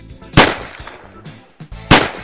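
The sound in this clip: Gunshot sound effects from a retro arcade chase game, two sharp, loud bangs about one and a half seconds apart, with quieter clatter between them.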